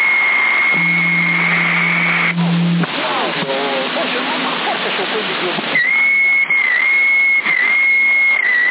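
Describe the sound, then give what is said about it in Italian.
Whistling carried over a CB radio on the 27 MHz band: steady high tones and a wavering, warbling whistle sit under constant radio hiss and static, with a brief low droning tone early on. “È un fischio questo.”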